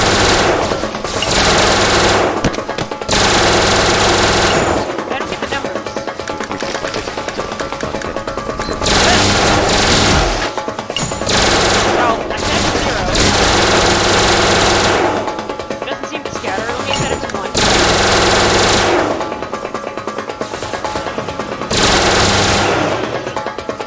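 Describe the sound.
Rapid automatic firing from a needle launcher weapon in a video game comes in several long, loud, rattling volleys, with short gaps between them.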